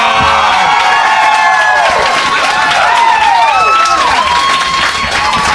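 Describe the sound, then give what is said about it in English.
An audience at the Comedy Bar comedy club applauds and cheers at the end of a show, with loud continuous clapping and high whoops and shouts throughout. “This one's not going to get nearly the round of applause.”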